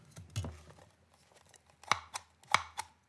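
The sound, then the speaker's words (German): A lever being pressed down gives a few sharp mechanical clicks and snaps, separated by quieter gaps, with the loudest clicks coming in the second half. “Aber der Hebel, also der Hebel, man zieht ihn quasi nicht, sondern man drückt ihn runter. Man drückt den Hebel runter, genau. Man, ja, das hört sich so an, warte.”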